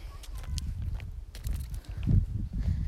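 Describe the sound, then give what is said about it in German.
Footsteps of a person walking outdoors among chickens: repeated soft, crunchy low thuds in an uneven rhythm under a continuous rough rumble. “Ich laufe jetzt gerade.”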